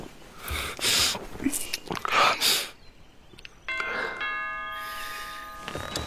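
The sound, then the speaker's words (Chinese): A building's main doorbell rings, sounding a sustained chiming tone for about two seconds. Before it come a few louder smacking, rustling noises. “大门铃被敲响”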